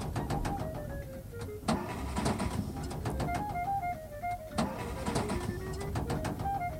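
A failing car engine sputters and stalls: a whining note repeatedly slides downward in pitch over several cycles beneath a steady, rough mechanical rumble, with no voices.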